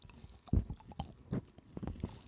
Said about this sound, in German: Ich probiere hier das After Eight.